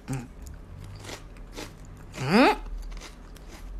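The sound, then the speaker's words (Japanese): Shrimp crackers from a Japanese snack mix being bitten and chewed: one sharp, crisp crunch with crackling stands out against quieter mouth sounds and light chewing. “このつまみ種に入ってるエビせんはいつもすごい食べてるから、これは美味しいんだと思う。”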